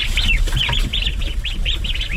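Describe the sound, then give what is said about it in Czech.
Ducks chatter and call after being fed on a farm in the Šumava region: many short, repeated calls in a steady stream over a constant low rumble, with no talk. “Lada Wagnerová právě nakrmila kachny”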